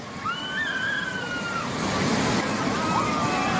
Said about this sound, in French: Une route s'est transformée en torrent déchaîné, c'est ça qu'on entend, et une voiture avec des gens à l'intérieur se fait emporter.